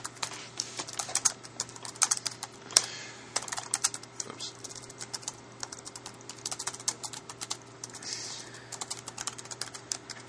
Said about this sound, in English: I can type in a little bit of IronPython code down here.